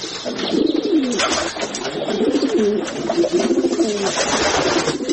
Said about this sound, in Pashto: ودانۍ کندوالی سوي او اوس شنو کوترو پکې ځالې جوړې کړې دي.